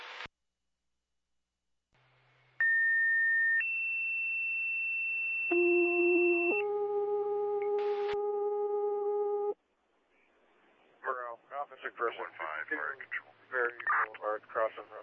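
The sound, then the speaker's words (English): Fire dispatch alert tones: a sequence of steady, pure electronic beeps that step through several pitches for about seven seconds, followed by a voice talking over a radio channel. “No need for additional tones. Car 215 responding, requesting no further tones.”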